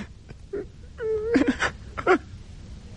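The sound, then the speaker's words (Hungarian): A person wails and sobs in a radio drama, with a few short moaning, whimpering cries whose pitch wavers, separated by brief pauses. “De hiszen még tud sírni. Talán sírnia sem szabad.”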